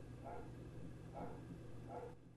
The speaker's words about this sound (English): Oh, my dog's barking.